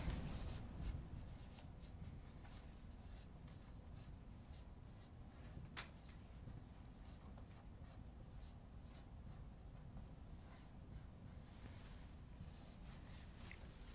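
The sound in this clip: Writing on a board during a physics lecture: a faint, continuous scratching of pen or chalk strokes over a steady background hiss, with no talk.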